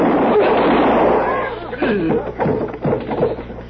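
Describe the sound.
A loud gunshot fired during a tense armed confrontation opens with a long, noisy rumbling tail, followed by a man's voice talking.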